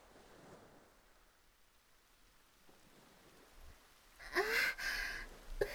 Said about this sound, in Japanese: 来ましたね。部屋に戻った方が良さそうです。提督様もそこにいると濡れちゃいますよ。冬の雨は冷たいですから